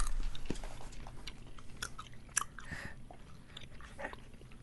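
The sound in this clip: Gum being chewed, heard as faint, soft, wet crunching and smacking bites repeating irregularly many times, with no talking.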